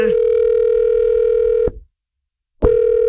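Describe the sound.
Telephone ringback tone on a radio call to a contest winner: a steady, loud tone lasts under two seconds, stops for about a second, then starts again.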